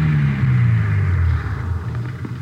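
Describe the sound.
A car driving on a dirt road gives a steady, low engine rumble whose tone drops slightly as it slows and pulls up, its loudness easing partway through.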